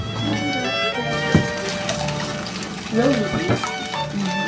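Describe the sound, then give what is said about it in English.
Cream being poured into a mixing bowl during home baking with children, a soft liquid trickle running under voices talking. “So somebody can add the cream in there. And then all we have to do is stir it up.”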